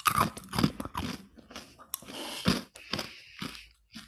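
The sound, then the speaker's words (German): Repeated crunching and chewing of high-protein insect cookies: many crisp, irregular bites and grinding chews follow one another closely, fairly loud, with brief pauses between. “Fangen wir an, so ein paar Kekse zu füttern.”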